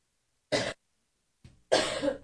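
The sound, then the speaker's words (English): Two people coughing: a short, harsh cough, then after a pause a brief cough and a longer, rougher bout of coughing, all loud against silence. “excuse me, we're both coughing here.”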